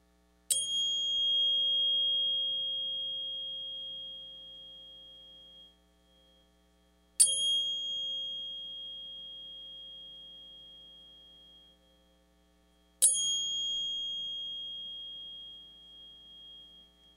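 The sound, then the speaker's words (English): A 528 hertz tuning fork is struck three times. Each strike gives a clear, pure ringing tone with a bright high overtone that fades slowly over about six seconds, over a faint low hum. “This is a 528 hertz tuning fork that she has. And when she hits it, I'm going to push this mic a little closer to get a better audio.”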